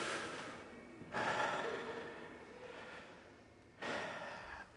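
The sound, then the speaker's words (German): A group of people standing for a warm-up, breathing deeply in and out twice: two broad, airy swells of breath, each rising suddenly and then fading slowly, soft and unaccompanied by talk. “Jetzt bitte alle zweimal tief ein- und ausatmen.”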